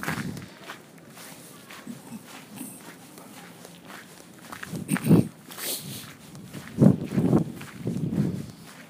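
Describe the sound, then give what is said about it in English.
Footsteps tramp through a very muddy stretch of ground. A few soft, squelching thuds stand out, heavier in the second half, over a low background. “Just walking through I think this is a truly muddy, muddy part.”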